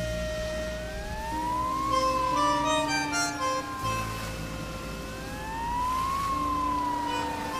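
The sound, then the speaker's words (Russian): An ambulance siren wails as it speeds along a highway, its tone sweeping slowly up and down in repeated long cycles over a low rumble of traffic. “Мчится скорая по трассе.”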